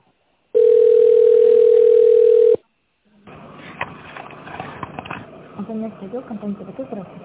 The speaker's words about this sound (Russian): Подождите, идет соединение. Еще нет.